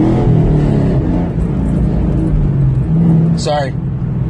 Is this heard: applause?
no

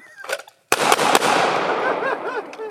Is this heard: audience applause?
no

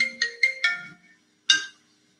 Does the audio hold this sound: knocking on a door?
no

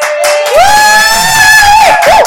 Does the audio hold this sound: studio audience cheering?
yes

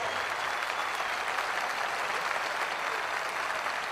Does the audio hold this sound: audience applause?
yes

